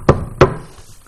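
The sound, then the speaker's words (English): Two sharp knocks on a door, evenly spaced and close together, each a solid thud followed by a brief fading tail and then quiet. “And then that knock came on the door.”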